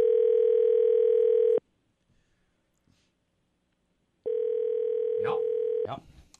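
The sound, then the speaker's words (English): Ringback tone of an outgoing telephone call: two long, steady electronic tones with a long silent pause between them, followed by brief voices at the very end. “Hopefully I dialed the right number, too.”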